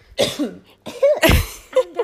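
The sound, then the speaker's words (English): Coughing from a woman choking on homemade pasta: a few harsh, voiced coughs in quick succession, loud and strained, with no talk. “She's choking on her homemade pasta.”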